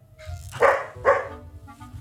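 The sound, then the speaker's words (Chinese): A pet dog barks twice at home, two sharp, loud barks about half a second apart over a low background hum. “听到我家狗叫了吧？”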